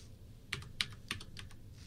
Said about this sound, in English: It wants my administrator password before it'll let me do that. Oh, and it wants me to type it correctly.